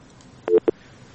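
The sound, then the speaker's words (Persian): Short electronic telephone tones sound as a caller's line is cut off and disconnects: a few brief, clipped, mid-pitched beeps close together, fairly loud against near silence. “بله خب تماسشان قطع شد.”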